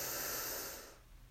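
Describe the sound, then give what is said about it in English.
A single deep breath taken during a guided breathing exercise, heard as a steady, airy hiss that fades out after about a second. “let's take a deep breath in, hold and exhale. Breathe in”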